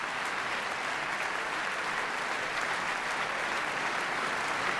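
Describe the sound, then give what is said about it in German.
Applause at the end of a concert: a dense, steady wash of many hands clapping that holds at an even loudness throughout, with no talk over it. “Wunderschöne Moment halt zum Schluss vom Konzer. An du bist aber immer lebt Blumen ob die Regente Puls. Jeder raus. Ein Applaus geht weiter.”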